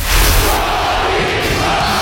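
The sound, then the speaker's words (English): Russian crowd chanting an American's name in a 1980s setting: a dense, loud roar of many voices that holds steady from start to end. “The Russian crowd chanting the American's name in the 1980s.”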